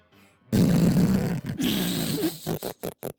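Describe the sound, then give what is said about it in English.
A fart sound: a prolonged, low buzzing rasp lasting about two seconds, followed by a few short sputtering bursts that trail off. “No, you gotta do the fart.”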